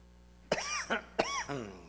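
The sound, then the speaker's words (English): Hacking coughs from a speaker during a talk on Acts: a few harsh, loud bursts with rough throat-clearing tails, heard alone. “Excuse my hacking.”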